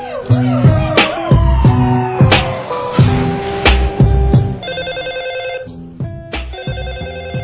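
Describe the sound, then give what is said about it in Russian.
A telephone rings over a rhythmic hip-hop beat with thumping bass hits. Bright ringing tones appear through the music, and a rapid trilling ring becomes most prominent in the latter half. “С утра звонок”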